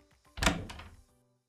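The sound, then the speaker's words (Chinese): Two light knocks on a door in quick succession, a dull thud followed by a softer second tap, with silence afterward. “服务员敲了敲门，很轻的两声，门从里面被人打开。”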